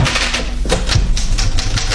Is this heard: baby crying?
no